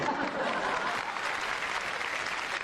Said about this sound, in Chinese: 朋友们，咱鼓鼓掌吧。